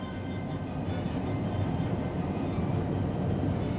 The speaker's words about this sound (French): on retourne dans le TGV avec Sibylle.